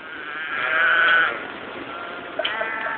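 Goats bleat in their pen. A loud, wavering bleat swells during the first second, and fainter, shorter calls come near the end. No one speaks.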